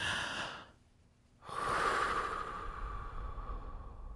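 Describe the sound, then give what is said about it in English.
Slow, deep audible breathing: an airy breath, a short silence, then a long, loud, steady inhale that rushes on for several seconds. “So if you calm your system down by just taking a breath in, a really deep breath in audibly,”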